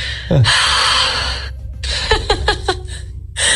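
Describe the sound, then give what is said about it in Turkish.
A voice imitates snoring in a gentle version: a long, loud raspy breath, then a series of short snorting pulses, and another breathy rasp at the end. “canım nasıl horlama böyle bu?”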